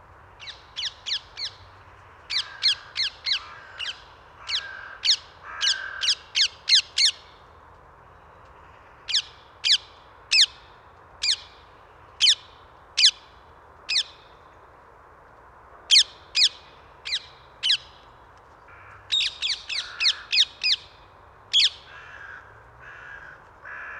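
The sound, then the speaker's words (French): A lone rose-ringed parakeet gives many harsh, high screeching calls, some in rapid bursts and others as spaced single notes, with quiet gaps between them. “Première perruche à collier.”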